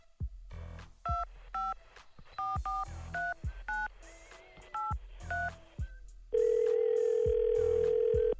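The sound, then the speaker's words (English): A telephone number is dialed on a touch-tone keypad, a series of short beeping key tones in an uneven rhythm, followed by a steady continuous tone. “dial the number”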